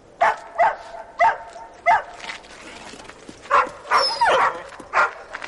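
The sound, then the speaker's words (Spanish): Dogs bark at a drunk man sitting on a street curb: sharp, mid-pitched barks come in quick bursts, then a pause, then a denser run of barks and yips. “Se sienta en el pollete de la calle mientras los perros le ladran.”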